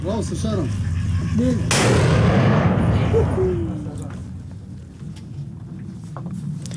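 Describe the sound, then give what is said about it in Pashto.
Artillery fire on the outskirts of Mosul, Iraq, during a military offensive: one loud blast with a long, rolling rumble that fades slowly over steady background noise, with faint voices near the start. “د موصل ښار په څنډو کې د توپخانې ډزې اورېدل کېږي”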